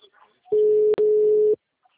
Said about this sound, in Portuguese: Tá me ligando agora.